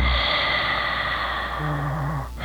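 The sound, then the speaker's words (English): A deep breath goes out through the mouth in a guided breathing exercise: a long, steady, airy rush lasting over two seconds with no voice, ending abruptly. “in through your mouth, and then out through your mouth. Breath going in, breath going out.”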